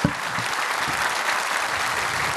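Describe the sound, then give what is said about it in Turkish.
An audience applauds for the orchestra at a live music event, with dense, steady clapping throughout and no talk. “o güzel alkışlarınız bir de orkestramız için olsun”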